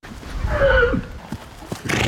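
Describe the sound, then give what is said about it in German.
A horse whinny from foals in a paddock where they play with a large rubber ball: one loud neigh with a slightly falling pitch, followed by a few soft knocks and rustles. “Sogar auf Jessica von Bredow-Werndls Koppel in Aubenhausen bei Rosenheim sind die Fohlen im WM-Fieber. Der große Gummiball ist das beliebteste Spielgerät für den Pferdenachwuchs.”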